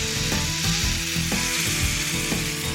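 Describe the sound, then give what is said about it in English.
Steady, dense sizzling of a steak frying in a pan just after being flipped, with onion slices placed on it, a continuous crackling hiss that holds at an even level throughout, with no voices. “let me flip this steak really quick because I know it's done on this side”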